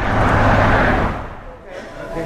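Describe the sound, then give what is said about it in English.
Steady rush of freeway traffic beside a downtown Boise shelter on a snowy December night. A broad, continuous whoosh of passing cars stays loud, then briefly eases before swelling again. “Outside the shelter, the city streets are sparse, but cars whiz by on the freeway running parallel to the building.”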